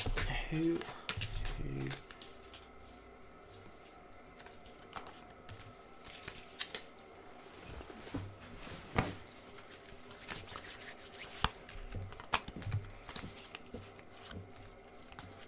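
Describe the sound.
Playing cards being dealt out during a tabletop card game: many soft, quick snaps and slides, quiet and irregular, with faint voices in the background.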